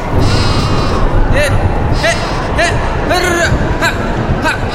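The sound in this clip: Goats bleat during a windstorm, with several short, wavering bleats rising over a constant loud roar of wind.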